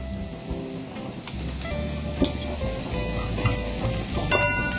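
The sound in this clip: Red onions and a little garlic fry in oil in a pan as a flavour base for cabbage. A steady, loud sizzle is broken by occasional sharp ticks and scrapes from stirring.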